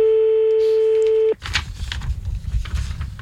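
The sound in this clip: A steady telephone dial tone hums for over a second before a number is dialed for an anonymous late-night call. It then breaks off into a run of rough, noisy clicks and rustling.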